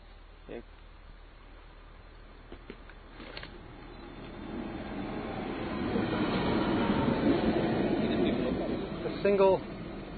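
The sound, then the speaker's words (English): A single diesel locomotive train passes: a broad, low rumble builds steadily over several seconds and stays loud to the end, with a few brief clanks and a short metallic squeal near the close. “A single diesel.”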